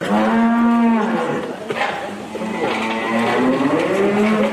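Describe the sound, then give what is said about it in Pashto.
Cows moo on a small dairy farm in Kandahar. Two long, loud, low moos are heard, one at the start and one near the end, with a quieter stretch between. “په کندهار کې د غواګانو یو کوچنی فارم هغه شیدې غاځي”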